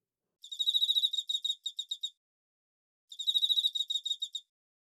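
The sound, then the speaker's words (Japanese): Bell crickets chirp outdoors at night in two separate bursts of rapid, high, tinkling pulses, each trailing off into a few shorter, spaced chirps, with silence between. “スズムシの鳴き声も吹いてくる風も心地よくって言うことなしだよ。”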